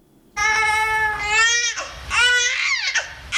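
An infant, a baby born in Afghanistan, babbles and cries in a few wavering, high-pitched vocal bursts. The bursts are strongly tonal, loud and steady, and come with short breaks between them.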